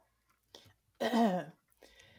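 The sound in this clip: A voice actor clears their throat for a raccoon character in a role-play story: one loud rasping burst, with a brief softer sound just before it and another just after.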